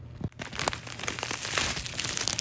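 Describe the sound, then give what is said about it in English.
A new material is crinkled and torn by hand: a continuous soft, crackling rustle with a few sharper ticks, fairly quiet throughout. “Alright, so apparently it's pretty easy to tear.”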